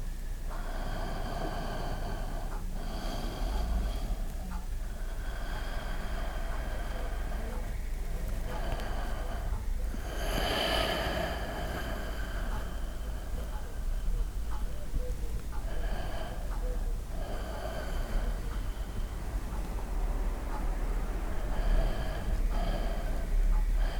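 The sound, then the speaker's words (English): Slow, deep breaths in and out during a meditative middle-pillar breathing exercise, a handful of soft, airy cycles over a steady tonal hum. “And as we breathe in and out again, we gather the energy in Malkut. And then as we breathe in, we fountain it again, and etc. So doing this for 6 cycles.”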